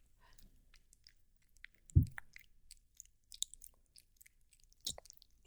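Soft chewing and biting on a thigh: faint, sparse wet clicks and squishy mouth sounds, with a couple of louder dull thumps standing out.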